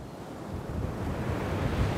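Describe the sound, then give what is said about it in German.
Surf washes onto a crowded beach at Aracaju in northeastern Brazil, where oil clumps are being driven ashore. It is a steady, unbroken roar of water with a low wind rumble underneath, and no single wave crash stands out. “Der Strand ist voll. In Aracaju im Nordosten von Brasilien herrscht bestes Badewetter, aber fast niemand wagt sich ins Wasser. Denn seit Tagen treibt die Brandung immer wieder Ölklumpen an den Strand.”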